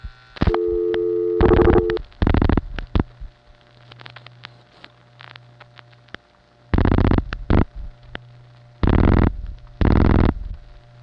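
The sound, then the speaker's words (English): Telephone signalling tones as a call from West 73rd through Amsterdam Tandem 2 dials four digits into a PBX: a brief steady tone, then a series of buzzy tone bursts separated by quiet gaps over a low hum. “Let's make another call. This time it'll dial four digits.”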